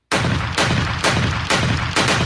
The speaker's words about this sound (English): Shots fired.